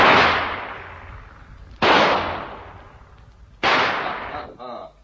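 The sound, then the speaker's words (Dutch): Three loud pistol shots ring out in an enclosed space, spaced roughly two seconds apart. Each sharp crack is followed by a long, fading decay. “Je hebt er gemist, Matt Melder. Er zitten drie patronen in zo'n zijpistool.”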